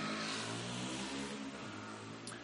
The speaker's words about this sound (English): Just wait for the bike to go.